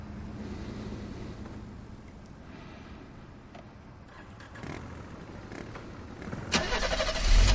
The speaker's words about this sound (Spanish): Cuando la moto arranca